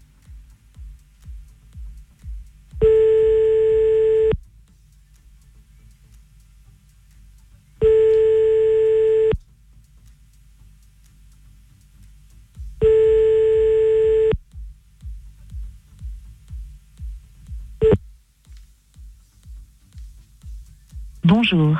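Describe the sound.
Telephone ringback tone while calling someone back, with three long, steady tones at even intervals and silence between them, followed by faint clicks and shuffling.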